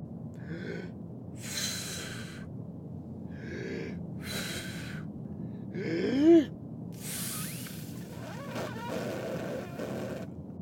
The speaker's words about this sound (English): I'm trying to light it with my breath.